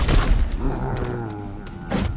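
Gunfire and heavy thuds in a video game battle, a dense rumbling mix of booms with a few sharper bursts scattered through it.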